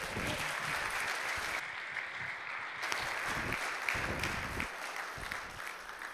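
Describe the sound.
A church audience applauds to welcome a pastor on a Sunday morning, with dense, steady clapping that fills the whole clip without a break.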